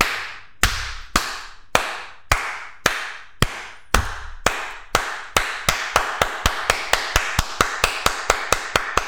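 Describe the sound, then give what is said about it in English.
A slow clap made of sharp, single hand claps. They start about a second apart and steadily quicken into a rapid, even beat of roughly two dozen crisp claps, loud and alone with no talk. “I realized I had to go faster because I didn't want to make it sound like an ironic clap. Right. Yeah. That was just the epic slow clap.”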